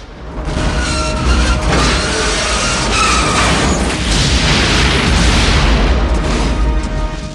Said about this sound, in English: Explosions are happening all around the oil plant.